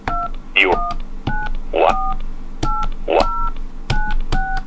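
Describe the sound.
Telephone keypad tones while dialing into a conference line: many short, clipped two-note beeps in an even rhythm, with quick rising chirps between some of them, over a low steady hum.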